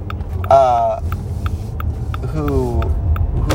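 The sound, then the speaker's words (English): A car's turn signal blinker ticking: steady, evenly spaced sharp clicks repeating about twice a second over a low engine rumble, with brief bursts of a voice in between. “Sorry if you can hear my blinker.”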